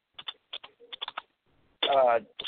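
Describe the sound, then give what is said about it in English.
Typing on a computer keyboard in the background: quick, light clicks in short irregular bursts, then a brief louder stretch of talk. “there's a background noise there, like some typing or something.”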